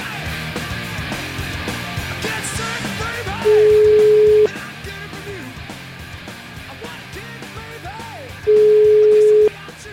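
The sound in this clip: Ringback tone of an outgoing telephone call: two long, steady single-pitch beeps, each about a second, separated by a few seconds and sounding over a dense, continuous background.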